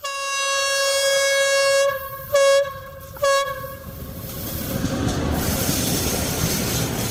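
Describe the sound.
A train horn holds a long, steady chord, then gives two short blasts, before the rumble of the passing train near a village swells and carries on to the end.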